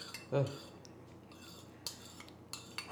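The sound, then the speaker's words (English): A spoon scraping against a plate of ice cream gives a few short, faint clinks and scrapes, spaced out over a quiet background. “That's the sound of the spoon grinding the plate of ice cream.”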